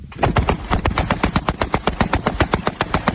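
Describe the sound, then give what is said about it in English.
Several rifles firing down a lake in rapid succession, many sharp, loud shots in a fast, nearly even rhythm that keeps going for the whole stretch. “I'm gonna go fire down the lake. My grandpa's lake. Ready? I'm ready. Fire in the hole.”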